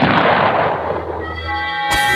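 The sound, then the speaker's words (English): A cartoon gunshot: a single sharp, bright bang near the end, preceded by a dense, rumbling noisy stretch that fades slightly before the shot. “Slowpoke Rodriguez, he packed a gun.”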